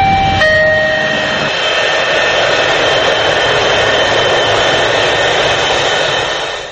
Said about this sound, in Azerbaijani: elə Azadlıq Radyosunun layneri də yəqin işdən sonranın üstündən indi uçur